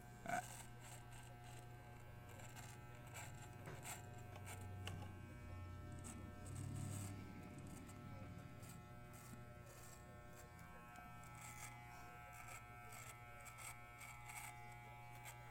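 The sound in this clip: An electric shaver buzzes steadily during a shave that trims facial hair down to a mustache, a faint, continuous low hum with a thin whine above it and slight swells in loudness.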